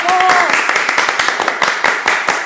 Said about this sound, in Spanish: queremos decir que bancamos a Ivana Nadal con este aplauso.